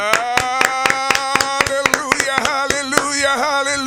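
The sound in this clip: Rhythmic hand clapping from a church audience welcoming the pastor: many sharp, evenly spaced claps keeping a steady beat over singing voices and music.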